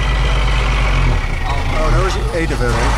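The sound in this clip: Truck engine rumbling steadily on the road, a low continuous drone under people talking throughout.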